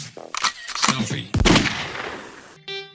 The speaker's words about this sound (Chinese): 举枪，射击。